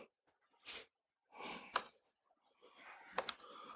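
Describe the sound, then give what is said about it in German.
Sparse key clicks from someone typing a command line on a computer keyboard, coming in a few short, faint bursts separated by pauses, with a couple of sharper taps standing out. “Da, ich schreibe einfach mal die Kommandozeile hin und zeige dann, was dann passiert.”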